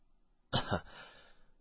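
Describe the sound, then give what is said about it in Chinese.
A single short cough from a sect elder, a sharp double-pulsed burst that trails into a soft fading breath, heard alone. “杨长老咳嗽了一声道”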